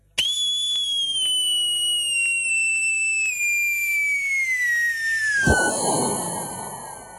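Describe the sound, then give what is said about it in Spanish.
A fireworks rocket whistles at midnight, a long high-pitched tone falling steadily in pitch, then ends in a loud burst followed by a fading noisy tail. “No querés tirar petardo. Grabá. No querés gastar guita en pirotecnia. Grabá.”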